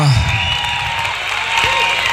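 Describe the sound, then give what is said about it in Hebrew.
Stormy applause from an audience, a dense, continuous wash of clapping at a loud, even level, with a voice speaking over it. “הנה, קיבלת מחיאות כפיים סוערות.”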